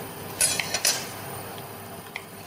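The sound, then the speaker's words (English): A metal pan is set on a stove to heat for a tadka in a home kitchen, giving a few quick metallic clanks close together and later one faint tick. The rest is quiet, with no talk. “So I'm just going to put the pan to heat in the meanwhile”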